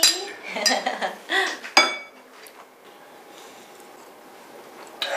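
Glasses clinking during a toast at a family dinner: a quick cluster of sharp, bright clinks in the first two seconds, then a low murmur of room noise, and one last clink at the very end.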